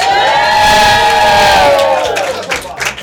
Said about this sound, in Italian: Sono loro, i ragazzi degli Apple Pie, fatevi sentire.